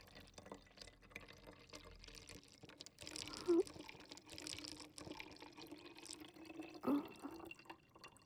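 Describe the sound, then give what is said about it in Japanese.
Water poured to mix a cleaning solution: soft, quiet trickling and dripping, with a couple of brief louder splashes partway through. “先ほどと同じ分量で、洗浄液をまずは作って、”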